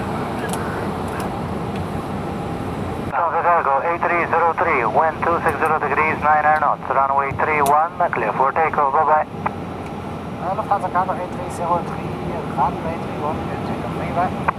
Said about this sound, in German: Take off. Co-Pilot Michael hat die Schubhebel nach vorne geschoben.